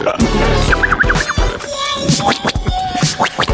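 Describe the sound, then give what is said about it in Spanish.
A DJ scratches a record over an eighties-style music track. Quick, rubbing scratch strokes cut in and out over the steady beat and melody. “Está haciendo scratch, pero sigue cabalgando.”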